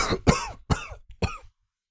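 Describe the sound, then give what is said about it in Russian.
A man coughs after gulping from a goblet: three harsh, separate coughs with a small throaty catch between the last two, followed by silence. “Геральт хлебнул из кубка, с трудом перевел дух, закашлялся.”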